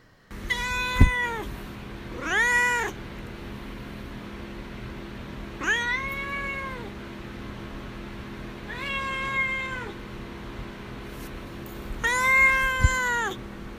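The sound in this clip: A pet cat meowing five times, drawn-out meows that rise and fall in pitch, spaced a few seconds apart, loud and alone with no talk.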